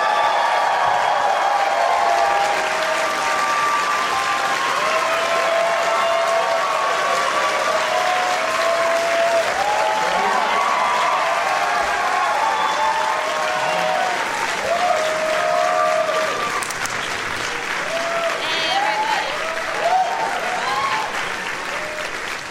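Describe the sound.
A studio audience claps and cheers as a comedy show's guests of radio, TV and film come on stage: dense, loud applause that holds steady for over twenty seconds, with scattered whoops and voices mixed in.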